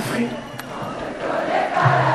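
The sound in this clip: Some 10,000 spectators at a benefit concert sing together at full voice, a dense, continuous roar of massed voices.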